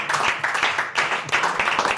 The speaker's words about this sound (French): N'applaudissez pas ça, voyons.